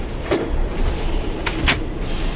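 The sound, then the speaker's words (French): Cars and buses at a metro terminus in Marseille produce a steady traffic rumble, with a few brief hissing bursts rising above it. “Jusqu'au terminus, qui est le début de toute autre chose. Des voitures, des bus par dizaines.”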